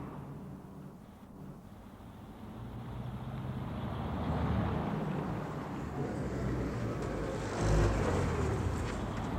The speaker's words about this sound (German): Außerdem werde ich gleich abgeholt. Ich warte hier nur auf den Wagen.